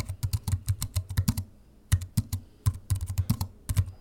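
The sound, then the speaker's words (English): Typing on a computer keyboard: many quick, crisp keystrokes in irregular bursts, with a brief pause partway through, fairly faint and heard alone. “also sent the sound of typing, which I think is such a perfect sound. It really is the definitive Type 5 sound.”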